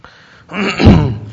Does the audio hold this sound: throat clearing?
yes